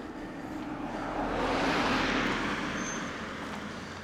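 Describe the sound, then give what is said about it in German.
A car passes on a road, a broad rushing noise that swells to a peak and then fades, with no talk. “Mit 3.500 Autos. Sag mal, wo kommen die denn jetzt wieder her? Ist die Kirche zu Ende oder was?”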